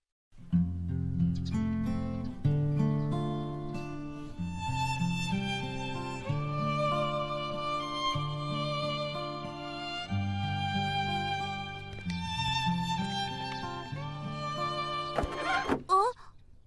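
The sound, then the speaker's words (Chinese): Soft, melodious instrumental music plays gently and at low volume, with sustained harmonic notes flowing over a low, steady accompaniment without pause. “这声音也不大呀，而且音乐很悠扬”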